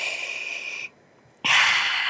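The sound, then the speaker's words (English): A deep breath is drawn in slowly and steadily, then after about half a second of silence let out in a full, airy exhale, both loud and clear with no talk. “And with that, I wanted to take another deep breath with you today.”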